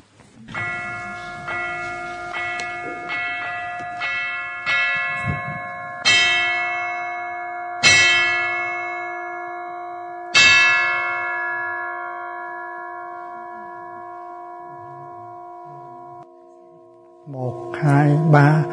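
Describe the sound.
A bell struck repeatedly, several strokes at uneven intervals, each adding to a sustained ringing whose steady partials decay slowly after the final stroke, with a voice entering at the very end.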